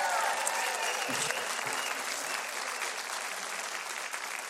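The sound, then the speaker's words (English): A studio audience applauds with dense, steady clapping that holds at an even level for the whole stretch. “Would you give them a big hand right now?”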